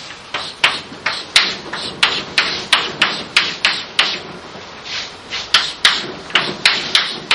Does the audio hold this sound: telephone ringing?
no